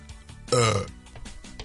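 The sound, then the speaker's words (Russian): A single loud, low, rough burp bursts out for under half a second, with quieter voice sounds before and after it. “отрыжка”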